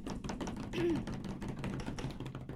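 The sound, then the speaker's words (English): A drum roll played as a build-up before a big announcement: a rapid, continuous rattle of fast soft strokes that runs steadily for the whole stretch without a clear finishing hit. “Can we get a drum roll, please?”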